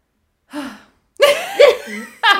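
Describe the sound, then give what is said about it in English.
A person drawing a deep breath, heard as a few loud, short voiced gasps with breathy, laugh-like catches separated by brief silences. “Deep breath.”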